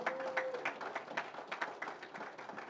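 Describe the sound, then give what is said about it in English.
Congregation clapping in a Baptist church: many quick, fairly even hand claps in a steady rhythm, moderately loud, with no voices over them. “You're thinking you're clapping, we ain't voted yet, all right?”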